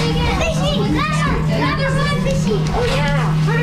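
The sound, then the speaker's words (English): About a dozen children exclaim in excitement as they watch a Chinook salmon through an underwater window at the Whitehorse Fish Ladder. Their high, overlapping voices chatter loudly and without a break over a steady low hum. “that's the sound of a dozen kids seeing a Chinook salmon up close.”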